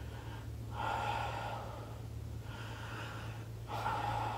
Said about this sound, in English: I want you to take 3 deep breaths in for me, it usually looks like this.